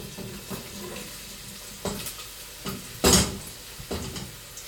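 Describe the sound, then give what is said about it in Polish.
Chopped onion is tipped into a pan with olive oil and garlic for chili con carne, giving faint sizzling with scraping utensil clatter, a few light knocks and one louder burst of rattling. “Teraz dosypię cebulę.”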